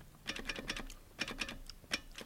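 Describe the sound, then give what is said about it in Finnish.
Quick tapping on a broken communication apparatus: faint, irregular clicks that come in short clustered runs with brief pauses, each tap crisp and dry. “No, lopeta nyt jo tuo naputtaminen. Ei sieltä kukaan vastaa.”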